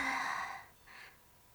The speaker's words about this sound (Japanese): こんな時は確かあれです、深呼吸なのですよ。